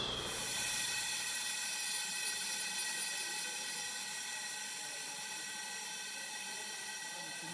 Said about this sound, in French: Donc là, on obtient une fuite permanente, mais par rapport au bruit caractéristique, l'apprenti doit savoir d'où ça vient exactement.